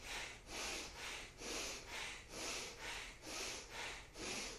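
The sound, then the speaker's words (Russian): Forceful belly breathing in a kriya exercise: many active, breathy inhales repeat in a steady rhythm about every half second, each a soft airy rush of even loudness, faint and without talk. “Активнее вдох делаем. Плечи не задействуем, только животом стараемся работать.”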